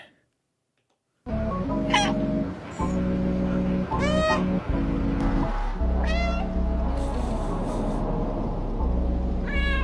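Cat meows from the video game Stray: several short cries, each rising and falling, over a steady droning game soundtrack that starts after a moment of silence.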